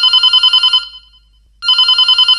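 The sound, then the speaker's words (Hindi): An incoming telephone call rings as a loud, high electronic trill of rapid pulses, breaks off for a pause of under a second, then starts ringing again. “एक phone और आ रहा है ले लेते हैं।”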